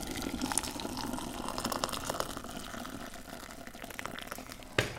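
Water poured for tea, a soft continuous rushing and trickling of liquid at low volume, with a brief clunk near the end.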